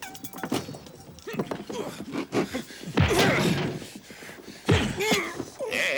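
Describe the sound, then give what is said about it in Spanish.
Heavy thuds and crashing whacks as new bunk beds are smashed in a 1991 western film scene, two strong impacts among lighter knocks, with voices mixed in. “¿Qué haces, gringo loco? Has destrozado las literas nuevas.”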